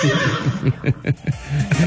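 Horse-like neighing: a rapid string of low, quavering voiced bursts, loud and uneven, with short gaps between them and no talk.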